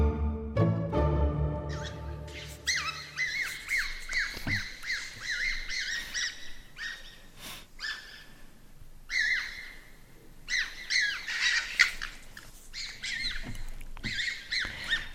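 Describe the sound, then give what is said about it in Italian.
Foxes calling in the city of Rome, a run of many sharp, high chirping cries repeating in irregular bursts, fairly loud, with no voices over them. “Le sentite? Facciamole sentire ancora in sottofondo. Queste sono le volpi. È il verso delle volpi che stanno prendendo d'assalto la città di Roma.”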